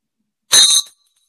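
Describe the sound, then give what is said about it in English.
A ritual hand bell (ganta), kept with a dorje, is picked up and rung once, giving a bright, brief metallic ring with a high shimmer that dies away within half a second. “here's a dorje, and here's a bell, a ganta. There's many ways to pick up a bell and a dorje. One could pick up the bell like this, you see,”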